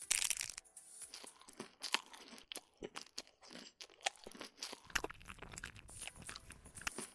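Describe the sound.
Someone biting into food and chewing it, with many crisp, crackly crunches in an irregular rhythm, fairly faint and with no talk over them.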